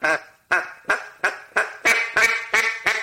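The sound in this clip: Nine short, rasping quacks come from a duck call blown softly and let go flat, evenly spaced about a third of a second apart in a steady rhythm, with no other sound.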